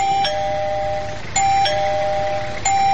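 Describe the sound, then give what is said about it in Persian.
A house doorbell rings three times, each strike a bright, clear chime that rings on steadily until the next, with no voices over it. “صبر کن زیاد زنگ نزن.”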